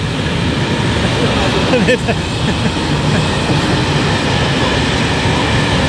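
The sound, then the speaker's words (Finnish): Passenger train running, a loud, steady rolling rumble with rail clatter and a few sharp clicks near the middle. “Tässä voi kuvitella, että kun matkustajajuna ajaa, niin miltä näyttää.”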